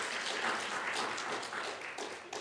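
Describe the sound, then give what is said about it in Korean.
Applause from a church audience encouraging a men's vocal ensemble, a faint, continuous wash of clapping that swells slightly and fades again. “우리 남성 중창팀들 한번 여러분 격려의 박수 한번 해주시기 바랍니다.”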